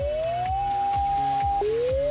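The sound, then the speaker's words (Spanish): An alert siren warning of a dam accident: a steady wailing tone rises, holds level, drops abruptly, then climbs again, loud and continuous, with repeated low pulses beneath it. “Este es el sonido de la sirena que alerta de un accidente en una presa.”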